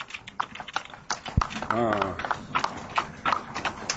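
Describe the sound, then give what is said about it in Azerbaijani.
Horse hooves clip-clop along a village road in Masallı, Azerbaijan, from a horse used to haul timber. Many quick, uneven hoof knocks run throughout, mixed with a voice in the middle. “At çox yaxşı heyvandır. Lap həyatın yaraşığıdır.”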